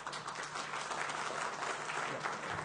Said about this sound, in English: this is a hard job, so thank you very much and please give her an applause.